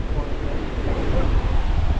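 Sea waves wash in a continuous rushing surge, mixed with wind buffeting the microphone, steady and moderately loud throughout.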